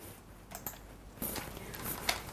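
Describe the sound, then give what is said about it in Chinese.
Typing on a laptop keyboard comes through faintly as a few irregular, soft key clicks and taps scattered across the moment, with no voices. “我有一台笔记本电脑，我在上网。”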